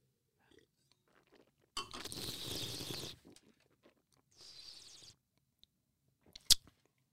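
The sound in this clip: Wine being slurped during a tasting, with air drawn noisily over the liquid. Two hissing slurps sound out of near silence, the first longer than the second, followed by a sharp click.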